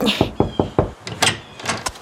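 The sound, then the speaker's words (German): Knocking on a blue door: four quick, firm knocks in an even rhythm, then a short pause and a few lighter, sharper taps. “Oh, und da ist die blaue Tür. Na, ich gehe mal klopfen.”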